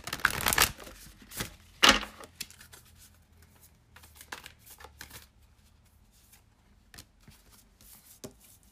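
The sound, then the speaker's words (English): Cards shuffled and drawn from an oracle soul deck: two loud riffling bursts near the start, followed by a scattering of quieter taps and slides as cards are handled and pulled. “Let's pull another one to clarify on that from the soul deck.”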